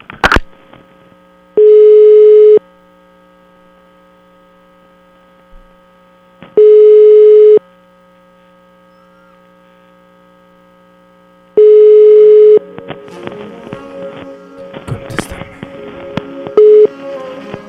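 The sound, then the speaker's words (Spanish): A telephone call rings out toward voicemail: three long, steady ringback tones spaced several seconds apart, then a stretch of crackly, garbled line sound and a brief closing tone. “Ya le vamos a marcar a Alejandra, tú. Alejandra, contéstame, Alejandra.”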